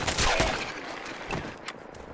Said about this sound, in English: This guy is still alive, but I blew his legs off. Well, now I blew his head off. Ooh, 10mm rounds.